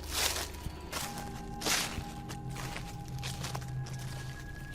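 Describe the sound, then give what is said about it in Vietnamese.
Rustling footsteps slowly approaching a house from the surrounding woods: a few soft, scuffing steps at uneven intervals over a sustained low musical drone. “Có tiếng bước chân sột soạt đang từ từ tiến lại về phía ngôi nhà.”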